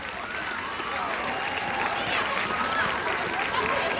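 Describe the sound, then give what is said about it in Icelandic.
An audience claps steadily for a minute in memory of Gunnar Þórðarson, a dense, continuous wash of many hands with no pauses, staying at an even, fairly loud level throughout, with faint crowd murmur mixed in. “ég ætla að biðja ykkur að klappa í eina mínútu í minningu Gunnars Þórðarsonar. Klöppum fyrir Gunnari Þórðarsinni og hans minningu.”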